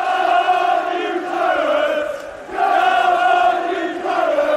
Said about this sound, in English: I apologise for the background noise. We're in the vintage Claret. We're just after a fantastic 3-0 win. And as you can imagine, it's quite noisy.